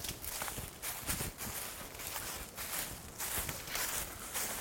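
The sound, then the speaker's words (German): Quiet footsteps of people walking around a big tree in a forest. Many soft, crunching steps fall in an even walking rhythm throughout, with no talk. “Also wir gehen jetzt um den großen Baum herum.”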